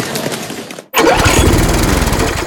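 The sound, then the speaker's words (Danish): A lawn mower engine drones loudly and steadily. It cuts out for a brief near-silent moment, then comes straight back at full strength with a rough, buzzing rattle. “Måske det er en ny græsslåmaskine, du har brug for.”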